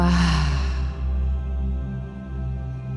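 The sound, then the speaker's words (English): A soft exhaling breath, an airy rush that fades out within the first second over a steady, sustained low drone. “And exhaling, letting go.”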